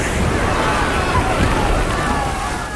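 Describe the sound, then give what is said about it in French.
A huge ocean wave crashes over a shipwrecked crew as a dense, loud roar of surging water and spray. The noise holds steady throughout and eases slightly at the end. “Une immense vague s'abat sur eux.”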